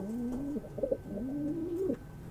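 Pigeons cooing at a newly opened venue: soft, low, rolling coos in two drawn-out phrases, each ending in a brief throaty flutter, faint against a steady background hum.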